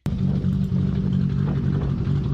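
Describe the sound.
A Toyota Supra with a huge turbo, rated at 1239 PS, accelerates hard. Its engine gives a loud, steady, low droning roar that starts abruptly and holds throughout.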